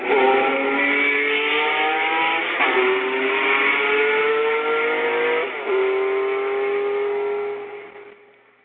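A race car engine roars in a film racing scene, its loud, sustained note climbing steadily in pitch, dropping back at two gear changes, then fading out at the end.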